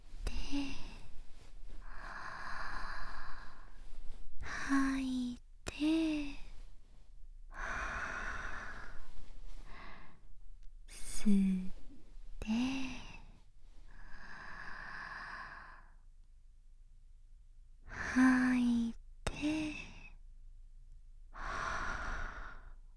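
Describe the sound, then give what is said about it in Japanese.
Slow breaths in and out during a guided relaxation exercise, a long alternating sequence of soft inhales and exhales with short pauses between them, some carrying a faint voiced edge. “吐いて、息を吸って”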